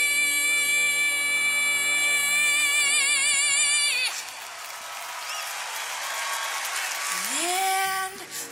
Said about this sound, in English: And they start cheering because it's over. Well, everybody's cracking up.